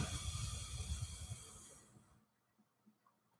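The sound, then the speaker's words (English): Forceful exhale after a held breath in a stress-relief breathing exercise: a breathy hiss lasting about two seconds that tapers off into near silence. “So breathe in through the nose again. Hold it. And then push it out.”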